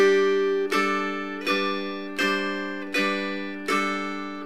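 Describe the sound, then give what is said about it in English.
Guitar notes picked with the thumb over a third-fret barre in G major: a ringing note, then five clean plucked notes at an even, unhurried pace, each with bright overtones that fade before the next, with no talk. “So what we need to do is use the thumb to pick up A, B, and C. And it'll sound like this.”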